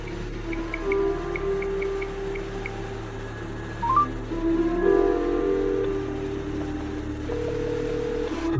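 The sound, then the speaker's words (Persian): Telephone keypad tones sound as a number is dialed to place a call: a quick series of short, evenly spaced high beeps over a steady low background hum, followed by a few faint longer tones. “بذارید یه زنگ بزنم.”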